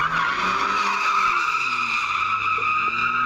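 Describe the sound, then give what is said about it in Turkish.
Car tires skid and squeal while drivers drift along city streets, a continuous high-pitched screech lasting the whole clip over a low engine drone, loud and unbroken with no voices. “Sokak aralarında ve caddelerde drift yapan sürücülerin o anları kameralara yansıdı.”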